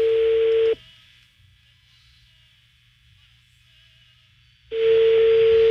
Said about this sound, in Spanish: ahí está sonando otra vez el teléfono de la señora que vende medicamentos para perros. Está sonando.